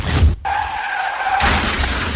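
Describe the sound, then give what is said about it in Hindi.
Sound effect of a car accident: a short noisy burst, then a high tire squeal of about a second as the car skids, followed by a loud, harsh crashing noise that runs to the end. “क्या आपका अपनी taxi चलाते हुए कोई accident हुआ है”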